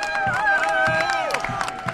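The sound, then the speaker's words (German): A crowd at an election party cheers and applauds as the lead candidate arrives. Shouts and whoops rise over a steady bed of clapping, with sharp claps standing out throughout. “Als Spitzenkandidat Winfried Kretschmann eintrifft, Hurra-Rufe und Applaus.”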